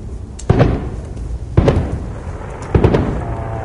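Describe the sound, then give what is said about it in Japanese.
Fireworks launched over a dark residential area, where they go up every day: three deep, dull booms spaced about a second apart, each followed by a short crackling, rumbling tail. “うん、これ毎日上がるってすごいですね。 すごいですね、 花火はすごいですよね。”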